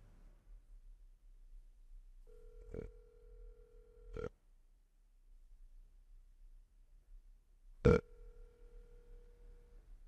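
An unanswered telephone call rings out as two long, steady ringback tones with a pause between them. The tones are faint, and a few sharp clicks break over them.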